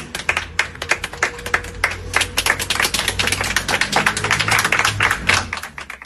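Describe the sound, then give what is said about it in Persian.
Applause from a crowd at a memorial gathering for slain protesters. Dense, irregular hand clapping runs for several seconds and swells toward the middle before thinning near the end. “دست بزنید به افتخار خودتون.”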